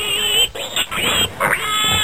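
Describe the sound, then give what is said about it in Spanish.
A pig oinks in a few loud, nasal grunts in quick succession, each with a buzzy, rising-and-falling tone and brief dips between them. The grunts stand alone with no other sounds around them. “se encontró con un cerdo que cortaba paja”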